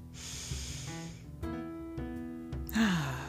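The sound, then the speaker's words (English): A deep breath is drawn in and released, soft airy rushes at the start and again near the end, set against faint steady tones. “And so we're going to take a deep breath.”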